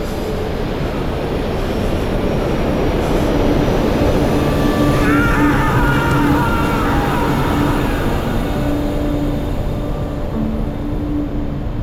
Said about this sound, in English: Prepare for takeoff.